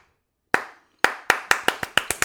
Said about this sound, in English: Slow down the slow clap, people. Let's slow it down.